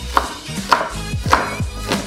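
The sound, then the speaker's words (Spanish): A knife finely chops an onion, giving a few evenly spaced, sharp taps about half a second apart over a steady low background hum. “seguimos con el procedimiento que es la cebolla, ¿sí? Se tiene que picar finamente.”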